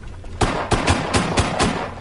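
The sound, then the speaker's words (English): Six gunshots fired in quick succession at a coffee cup tossed into the air, sharp and loud, evenly spaced across about a second and a quarter. “You hit it 6 times before it touched the ground! Sorry, Captain. Sam Cold only gives me 6 shots to work with.”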